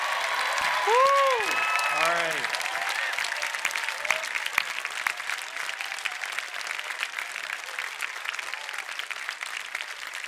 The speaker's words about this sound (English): If you're a freshman, stand up. Let them stand up first, then let's give them a big shout.